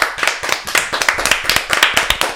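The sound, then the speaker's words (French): Applause for a stage performer: a few people clap in a quick, steady, even rhythm of sharp, bright claps, loud and with no talk over it. “Cécile Dumoutier, on t'applaudit.”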